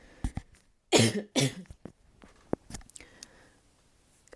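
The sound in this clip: Two loud, harsh coughs burst out close together near the middle, with faint clicks and small rustles before and after and no talking.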